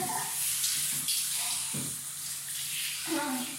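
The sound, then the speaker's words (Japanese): A shower runs with a faint, steady hiss of spraying water, continuous and even from start to finish. “ちょっとシャワー浴びます”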